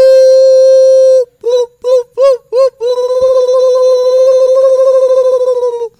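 Electronic telephone-style ringing: a long steady tone, then four short warbling bursts, then a sustained wavering tone, loud throughout.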